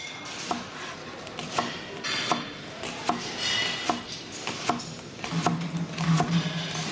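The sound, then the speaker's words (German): A knife chops onions in a steady run of crisp knocks, roughly one per second, each distinct above a dull background noise, with no speech. “Mit Zwiebelhacken. Das kannst du doch. Sicher. Dann zeig mal.”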